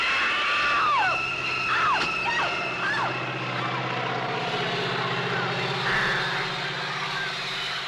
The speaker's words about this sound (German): Ein Flugzeug, das einen Menschen über ein Stoppelfeld jagt.